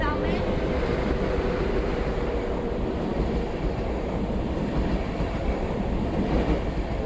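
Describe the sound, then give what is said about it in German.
Trains at a station platform make a dense, loud, steady rumble of rail and wheel noise that fills the whole stretch without a break. “Züge halten und fahren weiter.”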